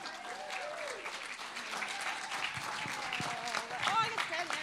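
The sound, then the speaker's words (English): A church audience applauds as a guest speaker is welcomed. The clapping is loud and continuous, and a voice carries over it. “I would really like you to put your hands together”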